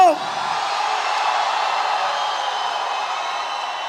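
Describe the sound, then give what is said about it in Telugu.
A crowd shouting in victory, a sustained dense roar of many voices that stays loud and steady throughout without a break. “Now only the victory shouting came.”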